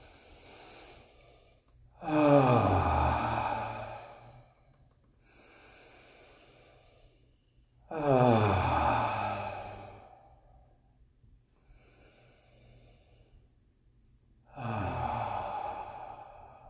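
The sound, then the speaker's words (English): Three deep, sweeping breaths in and out, each a loud breathy rush of air with softer breathing between them and no talk. “let's start with three sweeping breaths and just relax our shoulders after each”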